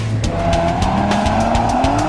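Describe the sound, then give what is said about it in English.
A Cadillac ATS-V with a twin-turbo 3.6-liter V6 and 464 horsepower launches off the line at Willow Springs Raceway, its engine note climbing steadily in pitch over loud, continuous tire squeal. “Immediately off the line, you know there's something special about the performance of this new Cadillac ATS-V. At the heart of this beast is Cadillac's upgraded twin-turbo 3.6-liter V6 engine.”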